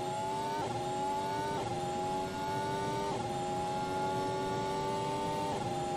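Formula 1 car accelerating hard out of a hairpin onto a long straight with a DRS zone. A steady, high engine whine dips briefly at each of several upshifts and stays fairly faint throughout.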